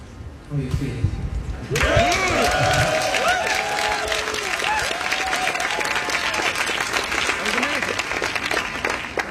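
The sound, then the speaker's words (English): A delirious audience bursts into loud applause and cheering after a performance of a Schubert song. Dense, sustained clapping rises abruptly and carries on with scattered shouts and whoops. “You're on fire. A delirious audience.”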